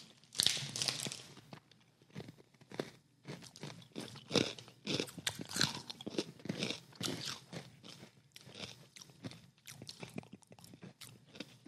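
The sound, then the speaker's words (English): Crunchy chewing of sweet corn flavored pretzel pieces: many crisp bites and grinding crunches come in an irregular rhythm, loud and unbroken by talk. “So sweet corn flavored pretzel pieces basically is what it is. I'm just probably going to read a description for these because these are pretty long-winded paragraphs about this stuff. So, all right, let's try these pretzels.”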